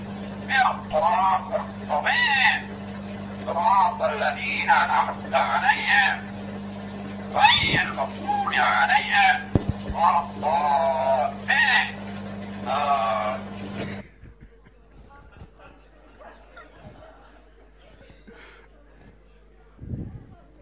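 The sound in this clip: A parrot recites Surah Al-Fatiha, imitating a human voice in a rapid stream of chattering, reedy syllables over a steady electrical hum for about fourteen seconds, then near silence.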